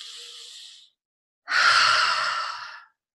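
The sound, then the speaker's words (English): A deep breath during a calming exercise: a soft, airy inhale of about a second, a brief pause, then a longer, louder sighing exhale. “And then take a deep breath.”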